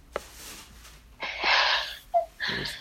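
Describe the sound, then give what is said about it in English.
Heavy breathing in and out through the mouth during a prayer healing session in Swaziland. A few loud, rushing, breathy gusts are separated by short pauses, with a brief tonal squeak between them. “So Holy Ghost, breathe in and out 5 times heavily with your mouth.”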